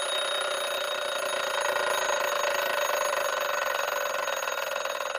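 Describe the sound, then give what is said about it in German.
An alarm clock rings in one continuous, steady, loud peal that lasts the whole stretch without a break, and no voices are heard over it. “Das war mein Wecker und heute klingt er irgendwie besonders wichtig.”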